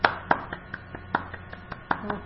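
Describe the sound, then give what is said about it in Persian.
Sparse, uneven hand claps from a few children applauding a classmate in a class. Roughly a dozen sharp, fairly faint claps fall at irregular intervals, with no steady roll of applause. “عالی، آفرین. تشویقش کنیم بچه ها.”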